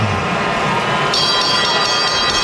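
Boxing bell ringing at the end of an eight-round professional fight, its bright metallic ringing starting partway through and continuing over a constant roar of the arena crowd.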